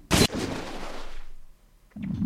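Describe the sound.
A missile launch in an artillery-style video game: a sharp, loud blast that trails off into a fading whoosh over about a second, then another burst of noise near the end.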